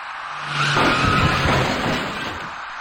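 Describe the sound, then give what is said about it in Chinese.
A taxi brakes hard at an intersection before hitting an electric bicycle rider, its tires giving a sustained, loud screech over steady road noise. “一辆在绿灯指引下由西向东正常通行的出租车，因为司机采取措施不及，把那位骑车人撞翻在路口里。”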